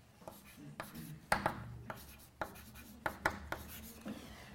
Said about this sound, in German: Ich schreibe das einmal an die Tafel, ist ein Säureamid.